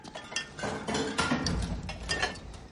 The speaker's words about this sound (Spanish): Observa una botella en una estantería. Se levanta y la coge.